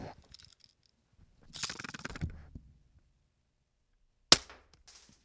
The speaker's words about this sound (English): Shoot the pistol next to the microphone.